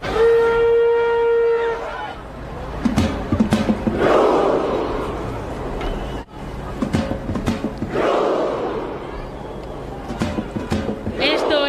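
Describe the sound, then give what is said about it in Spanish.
Norwegian fans perform the Viking Row chant at the World Cup: a long horn-like tone opens, then a crowd shouts in unison with sharp rhythmic accents, voices rising in loud bursts. “El Viking Row, que ya se ha hecho viral en TikTok, que lo hacen los noruegos lo y los que no son noruegos.”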